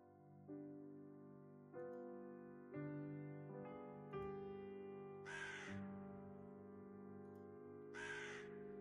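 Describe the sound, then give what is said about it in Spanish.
A crow caws several times in a misty forest, giving harsh, harmonic calls that start in a stepped series. Two short noisy bursts come later. The sound is faint throughout. “Un cuervo aletea, apareciendo desde la niebla. Vuela.”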